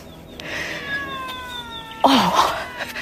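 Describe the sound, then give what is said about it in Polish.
A cat meows once, loud and clear near the end, its pitch bending up and then down, after a quieter stretch with faint thin tones in the background. “O, kot! Kot!”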